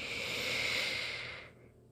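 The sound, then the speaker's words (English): A long, steady deep breath forms a smooth, soft, airy rush lasting about a second and a half before fading away, with no talking. “One more, here we go, nice deep breath in”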